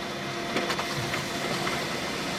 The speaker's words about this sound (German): Ein paar Sekunden später kommt der Plan aus dem Drucker raus.